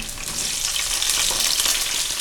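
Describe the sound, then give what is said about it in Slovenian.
Chorizo or another spicy sausage fries in hot oil with a bright, steady, crackling sizzle that stays even throughout, with no voices. “V vročem olju opražim čorizo klobaso ali pa pač bilo katero pikantno klobaso.”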